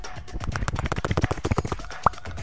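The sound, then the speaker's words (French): Balls being shaken for a morning horoscope reading make a rattling sound: many quick, dry clacks in a fairly steady rhythm, fairly quiet and continuous throughout. “Les Gémeaux, qui marchent toujours par deux, exceptionnellement pour vous ce matin, je secoue les boules de l'avenir pour vous faire une belle prévision.”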